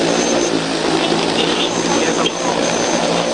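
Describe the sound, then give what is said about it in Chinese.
An agricultural crop-spraying drone takes off with a loud, steady whirring roar from its rotors. The dense mechanical whine holds evenly throughout. “现场学习操作质保无人机。 这个是绿色才能起飞，左边那个控制器。 即将起响，请远离。”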